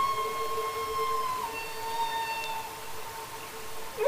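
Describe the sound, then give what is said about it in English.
Humpback whale song, made mostly by males: faint, long sustained tonal notes with a few abrupt pitch changes, ending on a short rising note. “And those humpback whale songs are mostly made by males and are likely used to attract a mate.”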